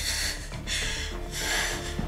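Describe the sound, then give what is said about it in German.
A patient sitting up and breathing in deeply during an emergency exam for a suspected pulmonary embolism: airy, breathy rushes in a few surges at moderate level, with no talk. “Können Sie sich aufsetzen? Und jetzt atmen. Ein.”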